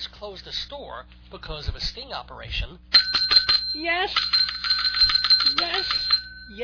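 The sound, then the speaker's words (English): A comedy bell rings to mark a bad pun: a few seconds of speech, then rapid, bright, repeated ringing for about three seconds, with a voice talking over it. “long-time listeners to Dave's Gone By know that is the sound of the comedy bell. The bell that signals the Dave's Gone By bad pun of the week.”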